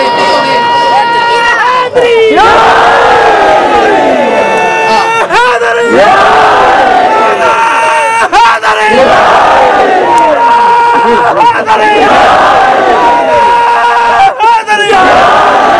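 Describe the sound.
A large crowd shouts a slogan in unison at a religious gathering. Loud, rhythmic bursts of massed voices repeat every few seconds, each call swelling and then falling away in steady waves.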